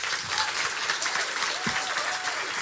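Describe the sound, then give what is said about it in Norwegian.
An audience applauds the evening's guest, a runologist and museum curator, with thick, sustained clapping from many hands that stays steady and even from start to finish. “men nå en stor applaus til kveldens gjest runolog og museumskonservator ved Follo Museum Jonas Nordby”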